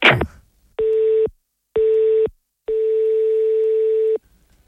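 An unanswered telephone call ringing on the line: after a brief noisy rustle, three steady electronic tone bursts sound, the first two short and the third much longer.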